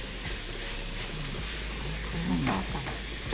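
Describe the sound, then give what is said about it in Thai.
Food stir-frying in a pan sizzles and hisses steadily while the spatula stirs and scrapes through it. The frying noise stays dense and continuous, with a few brighter scraping accents in the second half. “เราก็จะผัดไปสังเกตไหมคะว่าในกระทะเราเนี่ย”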